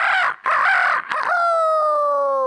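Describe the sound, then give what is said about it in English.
A rooster crows in the morning, a single loud broken call ending in a long sustained, slightly falling note, heard alone. “when she woke up in the morning when the rooster crowed”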